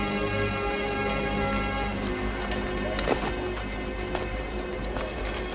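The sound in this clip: Hooves of a dramatized cavalry army, a dense, steady rumble of many horses moving together with a few sharper hoof strikes standing out above the continuous low roar.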